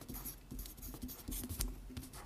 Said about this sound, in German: Okay, ich schreibe, ich habe einen Zettel. Ja? Ich habe was zu schreiben.